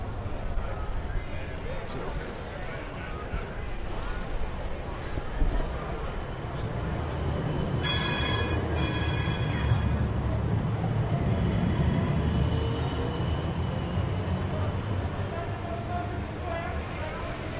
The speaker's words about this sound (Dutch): Bovendien sta ik op de trambaan, terwijl er van beide kanten nu trams aankomen